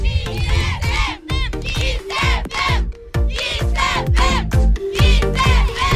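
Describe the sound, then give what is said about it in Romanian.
A large crowd at the Summer Kiss stage in Costinești shouting together in loud, rhythmic chanted bursts, with brief gaps between phrases. “Mamă, mamă, ce gască gălăgioasă! Și gașca asta striga ceva mai devreme. Hai să-i auzim ce striga ei.”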